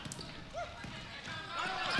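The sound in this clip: A basketball being dribbled at midcourt during a game, faint repeated bounces thudding under a man's steady play-by-play voice.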